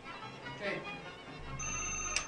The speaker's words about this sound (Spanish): parece que están llamando.